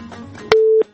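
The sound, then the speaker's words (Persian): A telephone tone sounds after a caller's line drops during a phone-in. One short, flat, steady beep lasts about a third of a second and follows faint background noise. “بله فکر میکنم تماس خطیبی عزیزم قطع شده.”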